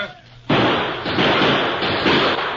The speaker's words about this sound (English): Keep shooting, Indian. Nail those buzzards.